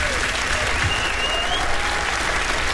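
Concert audience applause at a 70th-birthday tribute concert at Harpa in Reykjavík: loud, thick, sustained clapping from a large crowd, steady and unbroken from start to finish.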